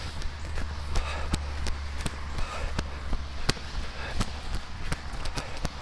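Footfalls of a person running outdoors on a cool day during a multi-mile run: many sharp, evenly spaced thumps at a steady jogging pace over a constant low rumble.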